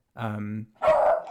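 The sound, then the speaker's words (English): A pet dog gives two short barks in quick succession, the first more tonal and whiny, the second harsher and broader, with silence before them. “Sorry, this is my dog. He just keeps showing his appreciation.”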